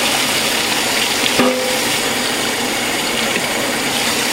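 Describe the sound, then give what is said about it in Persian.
Onions stirred by hand in a pan that has not yet heated up give a steady, soft rustling hiss with one brief click partway through. “چون هنوز داغ نشده با دستم پیاز رو دور میکنم”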